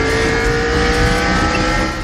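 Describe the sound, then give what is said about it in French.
Engine of a red race car from an animated film: a loud, sustained, high-pitched roar with a steady whining tone, holding at nearly constant pitch and easing slightly in level at the very end, with no talk. “Extrait du film animé Cars. Vous savez, cette voiture de course rouge du nom de Flash McQueen,”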